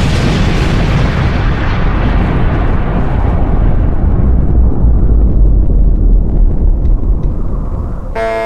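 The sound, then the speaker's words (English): An atom bomb explosion sound effect: a loud, sustained roaring blast whose hissing top gradually fades while a heavy, deep rumble carries on for about eight seconds. “You choose the sound effect. You want me to? Yeah, yeah. An atom bomb going on.”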